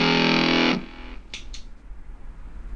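An electric guitar played through a Fuzz Face fuzz pedal with delay and no compressor. A loud, buzzing, distorted note rings, then cuts off sharply, followed by two short, bright scratchy bursts over a low hum.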